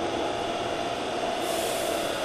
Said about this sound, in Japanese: これ静かでしょ。めちゃめちゃ静かですよこの地下鉄、本当に。